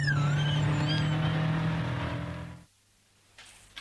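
A car engine roars at high revs as the vehicle is driven fast on a joyride, a loud steady drone that cuts off abruptly after about two and a half seconds, leaving near silence with a faint noise at the end.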